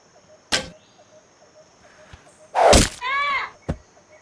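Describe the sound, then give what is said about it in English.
Shots fired at a target during target practice, a few separate sharp impacts spread across the moment, with one louder, longer burst in the middle, heard alone. “Have you even done any target practice before? Nope. First time. Ah, give it here. Watch and learn.”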